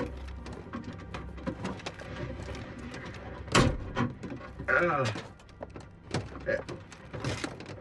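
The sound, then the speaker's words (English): A car glove compartment being forced open with the gear shift: irregular knocks and thunks, one heavier thump, then a burst of scraping and rattling, all fairly faint. “he starts using the gear shift to jimmy the glove compartment open.”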